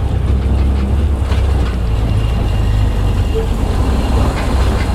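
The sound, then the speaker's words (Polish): A tricycle carrying five passengers rides along past palms and rubber trees, giving a loud, continuous low rumble and road noise that holds steady for the whole clip. “Pięć osób teraz jedzie na tym trójkołowcu.”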